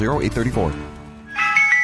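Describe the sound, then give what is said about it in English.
An ice cream truck's jingle plays as a bright, tinkling high-pitched melody, steady and fairly loud, entering about midway after a short burst of voice at the start. “All right, ice cream truck's coming.”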